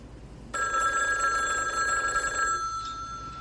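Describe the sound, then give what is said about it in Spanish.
A telephone bell rings once: a bright, sustained metallic jangle that starts abruptly after a brief quiet moment and then fades out. “coge el teléfono”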